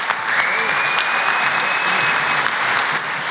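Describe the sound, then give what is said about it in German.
Dense, loud applause at the 2023 Austrian state championship for car body technicians, greeting the new champion. The clapping stays steady and continuous from start to finish. “Das ist dein Applaus.”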